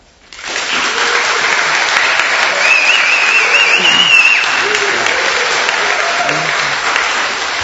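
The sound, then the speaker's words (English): A live studio audience at a paranormal-themed radio show in Exeter Town Hall bursts into applause and cheering: loud clapping starts abruptly and holds steady, with a shrill wavering whistle rising above it midway. “And for the first time in the history of our show, we have a live audience, as you could hear. They're good at that, aren't they?”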